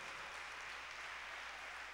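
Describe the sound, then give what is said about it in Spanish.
Faint applause from a church audience, a steady, even patter of many hands clapping that holds at the same low level for the whole two seconds without a break. “Dale un aplauso grande a Dios, llegó primero.”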